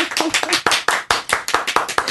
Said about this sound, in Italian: un applauso a Davide, applauso ed incoraggiamento.